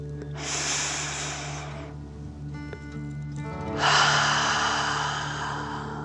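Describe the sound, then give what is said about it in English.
Deep breathing in a relaxing children's story, two long airy breaths separated by a short pause, the second louder and longer, over soft sustained background music tones. “take another deep dragon breath. Fill up your chest and belly in and out.”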